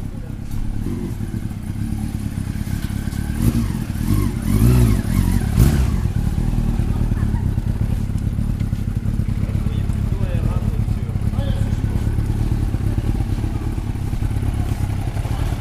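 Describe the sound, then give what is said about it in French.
Vehicle body repair workshop in a high school: a steady engine-like rumble with intermittent clattering and thumps runs throughout, while people talk over the noise. “on va rentrer dans l'atelier carrosserie”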